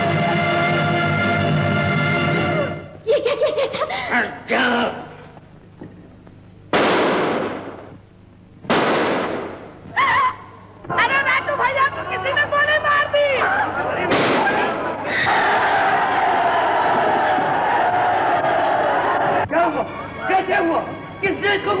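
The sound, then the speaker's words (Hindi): A gunshot in a radio drama: a few sharp explosive bursts break through loud, agitated shouting voices amid crowd commotion. “मैंने मारा, हमने इस बदमाश को गोली मारी है।”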